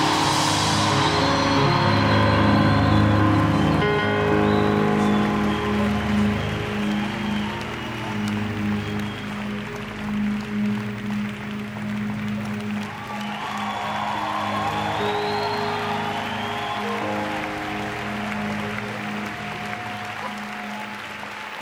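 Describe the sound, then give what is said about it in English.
Sustained applause from a church audience welcoming an archbishop fills the whole clip, a steady dense clapping roar that stays loud throughout with only slight swells, alongside a low tonal hum. “Welcome His Grace, Archbishop Gladstone Botwana. Come on, somebody, let's give the Lord a hand of appreciation.”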